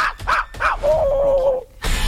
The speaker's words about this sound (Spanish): ¡No! ¡Se asusta la perrita!